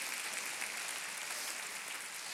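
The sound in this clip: An audience clapping during a church service makes a dense, even wash of applause, fairly faint and continuous throughout, with no voices.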